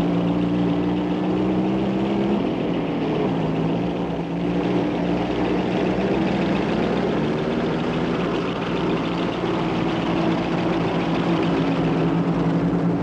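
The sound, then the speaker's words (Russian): Two German trucks, escorted by two motorcycles, drive along a road. Their engines make a steady, loud drone with a low hum that continues for the whole stretch, and no voices are heard. “Два немецких грузовика в сопровождении двух мотоциклов едут по дороге.”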